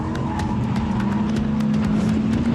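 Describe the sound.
An Audi with four-wheel drive drives with its stability control switched off and slides slightly through a long curve. The engine holds a steady, continuous drone throughout, with occasional brief scuffing noises over it.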